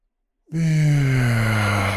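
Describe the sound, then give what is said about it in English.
A long, voiced exhale like a deep sigh during a guided breathing exercise, starting abruptly after silence and holding a steady, low tone that falls slightly as it continues. “Take another breath in the nose. Into the solar plexus.”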